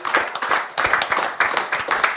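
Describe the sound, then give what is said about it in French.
An audience applauds at a live event, with brisk clapping in a few quick rhythmic bursts that stays fairly loud throughout. “on peut l'applaudir”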